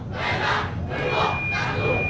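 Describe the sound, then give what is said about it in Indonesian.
An audience cheers and chants yells at a stage event, greeting a yell performance by a children's delegation. The massed voices keep up a steady roar that swells in three waves. “luar biasa sekali sorak-sorai dari penonton Niki menyambut dari yel-yel yang sudah disampaikan”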